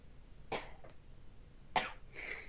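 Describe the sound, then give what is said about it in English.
A person sneezes to clear the sinuses, giving a few sharp, breathy bursts with quiet gaps between them. The sounds are faint overall. “And that was just a sneeze to clear my sinuses.”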